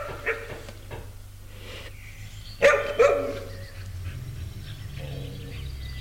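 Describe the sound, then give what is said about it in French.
Fierce dogs barking: a short burst of a few sharp, loud barks in the middle stands out over a steady low rumble, with a fainter bark near the start. “pas très rassurée à cause des chiens qui semblent très féroces.”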